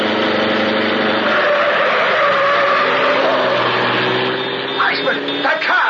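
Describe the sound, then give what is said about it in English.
A car speeds past, its engine giving a loud, continuous roar with a mid-pitched drone that holds steady, then breaks into shorter, uneven bursts near the end. “Drive right past them”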